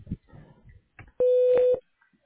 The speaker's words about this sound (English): You've reached the voicemail box of Taylor Reed. Please leave a message after the tone.